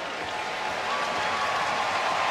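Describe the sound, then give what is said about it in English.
Hockey crowd at TD Garden rising to applaud the home team in the closing seconds of a lopsided win, a steady, dense wash of clapping and crowd roar with no distinct voices standing out. “Remaining crowd here at TD Garden coming to their feet to salute the hometown heroes.”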